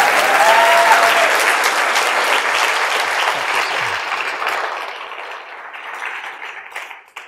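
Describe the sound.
Loud, dense applause greets Whole Foods co-founder and CEO John Mackey as he comes on stage. It starts strong and steady on its own, then gradually thins and fades toward the end.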